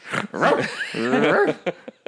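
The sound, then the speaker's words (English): A dog barks and yelps: a longer whining, tonal vocal cry followed by a few short, sharp yips, loud and alone. “Dog”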